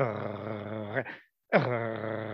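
A Foley-made roar with a rough growl inside it that resembles a small Yorkie-type dog. It comes as two sustained, gravelly bursts split by a brief silence.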